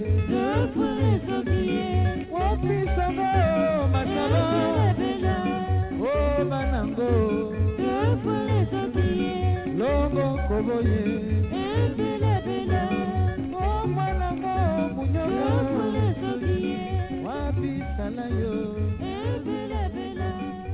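Orchestra music from the Democratic Republic of Congo plays continuously at a steady, even loudness, dense and full with a regular thumping bass pulse under layered melodic parts.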